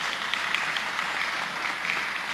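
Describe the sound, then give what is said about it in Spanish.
Applause from an audience: a steady, dense patter of many hands clapping at an even, fairly quiet level, with no clear start or finish. “Un aplauso para ellos, porque solamente podemos aplaudir.”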